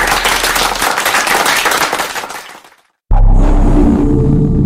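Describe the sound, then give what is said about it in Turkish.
Wild crowd applause for a performer: a dense, crackling roar of clapping that slowly fades out over about three seconds, followed by a short silence before another sound abruptly cuts in. “Ozan Kaya için çılgın bir alkış.”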